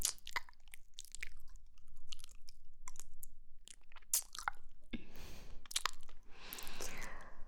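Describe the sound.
Wet mouth sounds of nibbling and eating at an ear: many soft smacks, clicks and licks come in an irregular rhythm. A breathy rushing sweep rises near the end. No words are spoken.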